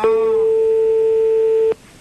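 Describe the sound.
A telephone line tone sounds as a call rings out during a phone-in game: one steady, mid-pitched beep held for about 1.7 seconds, then cut off abruptly, leaving faint background hiss.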